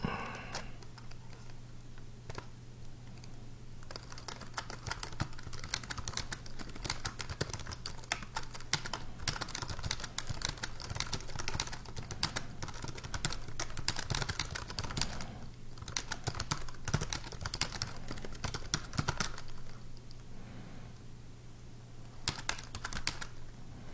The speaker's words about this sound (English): Let's type that.